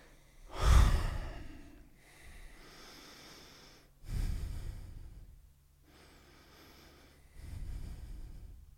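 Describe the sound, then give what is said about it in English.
Three deep, slow breaths taken in focused relaxation, each a distinct breathy surge of airflow that swells and fades, separated by softer stretches of quieter breathing. “I'm going to move out of my head and just breathe in and focus in the center of my chest. Take three breaths.”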